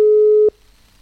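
Telephone line tone while a call is being connected: one steady, mid-pitched beep holds for about half a second and cuts off abruptly, leaving near silence afterward.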